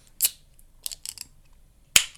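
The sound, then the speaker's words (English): A beer can cracked open: a sharp snapping pop at the start, a few softer clicks midway, then a loud crisp pop with a short tail near the end, with no talking. “Let me get some ASMR here. Oh yeah. I'm cracking a beer.”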